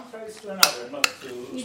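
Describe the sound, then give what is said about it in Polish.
A knife slicing cheese for a potato bake with zucchini and carrots gives two sharp, bright taps against the board under ongoing conversation. “Kroję ser, bo właśnie będę układał go z ziemniakami i różnymi innymi warzywami, z cukinią i marchewką.”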